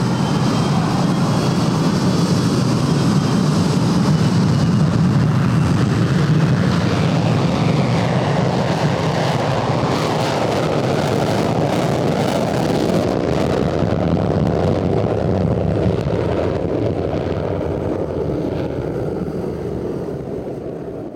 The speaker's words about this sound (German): T-10, 9, 8, 7. Startsequenz eingeleitet. 4, 3, 2, 1. Start.